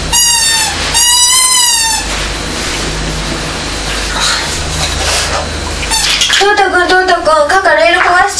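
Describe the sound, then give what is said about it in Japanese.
A toy train runs along its rails with a steady, loud whirring rumble. High, children's voices can be heard at the start and again near the end. “ここレール、トーマス走れないよ。ここ直して、ここ外れちゃった、直して。”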